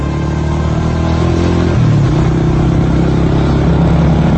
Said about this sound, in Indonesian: Aku pun langsung mempercepat sepeda motorku itu untuk mendekati kendaraannya.